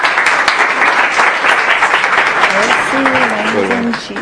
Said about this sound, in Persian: امیدوارم که ارائه خوبی باشه یه دست واسش بزنید